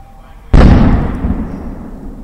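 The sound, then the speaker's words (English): Sudden loud blast of a police stun grenade or flashbang set off at night during an armed standoff at a townhouse: a single sharp bang followed by a long, rumbling decay that fades slowly. “a loud blast interrupted the negotiator, possibly a police stun grenade or flashbang.”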